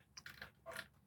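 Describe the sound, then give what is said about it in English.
Chewing food, soft crunchy mouth sounds in a few quick bursts, faint and brief with no voices. “Give me 1 second. I gotta chew.”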